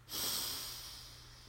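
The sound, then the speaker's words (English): A deep breath drawn in during a guided breathing exercise: a soft, airy inhalation that swells quickly and then slowly tapers off, heard alone without talk. “And our last breath in together. Breathe in”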